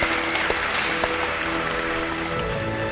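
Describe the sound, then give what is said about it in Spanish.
Audience applause at a nighttime event, heard as a dense, steady crackle of many hands at an even level, with a faint constant hum running underneath. “Aplauso.”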